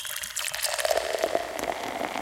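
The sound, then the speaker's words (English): Tea pours into a jar in one continuous stream for about two seconds, a bright splashing gurgle with a steady liquid tone and no pauses. “Now I'm pouring some tea on it.”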